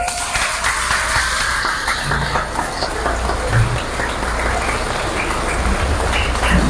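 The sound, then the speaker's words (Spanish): Congregation applause at a church service: a dense, steady patter of many clapping hands that holds evenly throughout, sounding almost like heavy rain. “felicidades, un aplauso.”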